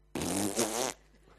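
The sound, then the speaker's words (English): A voice imitates a fart-like noise coming from a loudspeaker: one buzzy, blaring burst lasting under a second, then quiet. “Keke looks at me and goes, who farted?”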